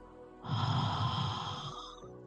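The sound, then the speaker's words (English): A slow exhalation during guided breathing in a full moon purifying ceremony: one long, breathy rush of air lasting about a second and a half, set over a soft, steady sustained tone that continues before and after. “I want you to breathe in. That's right. Hold it to the top. Hold it to the top. And now breathe out.”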